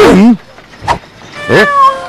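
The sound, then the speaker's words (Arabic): A cat meows while looking for food. The loud, wavering meows come as a few separate calls, with a short, sharper cry between them. “إنها مجرد قطة تبحث عن طعام للعشاء. سأضع لها طعاما.”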